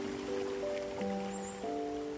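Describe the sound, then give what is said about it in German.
Water bubbles and rushes like a stream flowing through a valley, a soft, steady hiss of trickling beneath gentle, sustained musical tones. “welcher aufgeregt sprudelnd durch das Tal fließt.”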